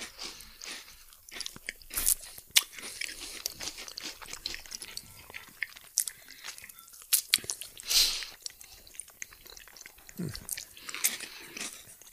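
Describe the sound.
Homemade chestnut bread is bitten and chewed, with many crisp, irregular crunches and softer chewing between them, fairly quiet throughout.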